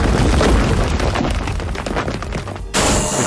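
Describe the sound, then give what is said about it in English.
The Stone Pyramid attack in a turn-based monster battle video game lands as a loud, rumbling boom with crackling bursts, then cuts abruptly to a brighter hiss near the end. “Foe Resgard used Stone Pyramid.”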